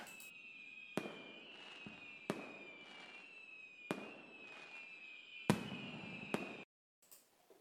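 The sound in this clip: Fireworks explode in several sharp bangs spread irregularly over a sustained high whistling tone, with crackling between bursts, a brief silence near the end, then a final faint pop or two.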